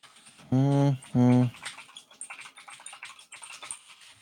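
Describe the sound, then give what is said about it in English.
Typing on a computer keyboard: a quick run of many light, uneven key clicks, preceded by two short hummed vocal sounds. “I got to type it out to make sure I'm like saying it right.”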